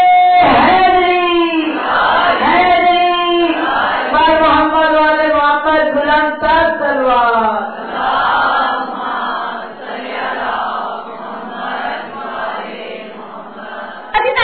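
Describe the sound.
Crowd at a religious speech chanting the slogans Nara-e-Takbir and Nara-e-Risalat, many voices bellowing drawn-out, pitched call-and-response phrases, loud and sustained throughout.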